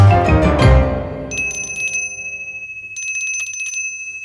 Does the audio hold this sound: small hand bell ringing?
yes